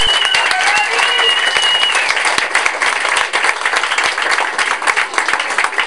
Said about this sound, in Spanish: Lo recibamos con un fuerte aplauso.